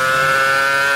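An older, louder Formula 1 race car engine screams at high revs: a loud, sustained whine with strong tonal harmonics, holding an even pitch and level for the full second.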